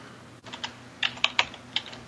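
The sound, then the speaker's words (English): Typing on a computer keyboard as a name is entered into a search engine. A handful of sharp, sparse keystrokes tap out at an uneven rhythm, with no voices over them. “Just type him into Google.”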